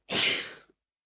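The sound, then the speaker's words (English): A single sneeze: one short, breathy burst of noise that fades out within about half a second. “bless you”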